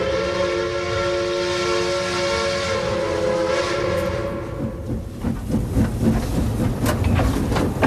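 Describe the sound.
A train at a railway station platform in Marseille: steady whistle-like tones sound first, then a loud, continuous rumble with irregular clattering and clanking toward the end.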